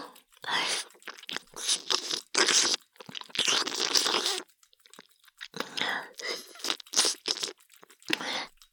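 Crisp crunching and chewing sounds from an ASMR roleplay of nibbling on an ear come in quiet, irregular bursts separated by short pauses.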